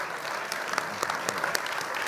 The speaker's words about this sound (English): And let's stand and give this choir a hand for all this beautiful singing that they are doing right now.